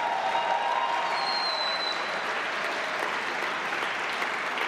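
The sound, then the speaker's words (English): Audience applause at a speech: a dense, steady wash of many hands clapping, with some crowd noise, sustained at even loudness throughout without a break. “And listen to the audience reaction after he says that at the beginning, and then we'll come back.”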